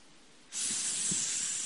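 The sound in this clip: A snake hisses: after a quiet start a steady, breathy hiss suddenly switches on and holds at an even level to the end.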